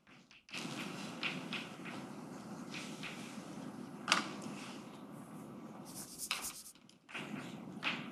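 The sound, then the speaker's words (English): Writing on a board during a lecture: faint, continuous scratchy strokes with occasional light taps and brief pauses. “it's really hard to write with good handwriting at the bottom of the board”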